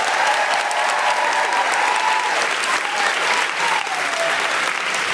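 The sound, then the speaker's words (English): Enthusiastic crowd applause and whooping at a live comedy show, welcoming a comedian to the stage: loud, continuous clapping with scattered high cheers rising above it throughout. “Please put your hands together and make extraordinary, welcoming, guilty feminist noises for the wonderful Garrett Millerick!”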